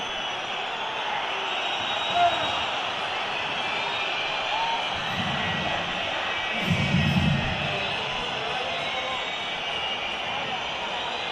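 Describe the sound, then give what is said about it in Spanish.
At the end of a Valencia match, the Mestalla stadium crowd sends up a steady, dense roar of cheering that stays even throughout, with a couple of slight swells. “Se acabó el partido, escuchen a Mestalla.”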